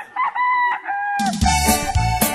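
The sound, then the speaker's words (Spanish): A rooster crows at the start of a cockfight at a breeding farm, giving one long wavering call alone. Loud norteña music with a heavy bass line then breaks in. “Suelten gallo, señores. Comienza la pelea.”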